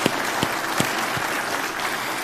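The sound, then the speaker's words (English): An audience applauds the staff with a steady, sustained burst of clapping, even in loudness throughout, with a few sharper individual claps standing out. “So let's give the staff guys a round of applause.”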